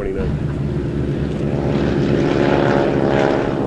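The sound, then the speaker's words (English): A 1929 propeller airliner drones steadily in flight. The engine and propeller hum sits low, thick and constant for the whole stretch, loud and unbroken and with no change in pitch. “The interior of this airplane is exactly the way it came from the factory in 1929. This is a museum piece.”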